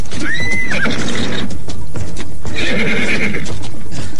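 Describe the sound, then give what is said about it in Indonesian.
A horse gives two shrill, wavering whinnies while its hooves stamp and thud, trampling scattered snakes. Dense, busy stomping fills the whole clip under the loud neighs. “Tunggul, kuda sakti yang disebut-sebut sebagai kuda setan di sekitar Bukit Tunggul, menginjak-injak ular-ular yang bertebaran.”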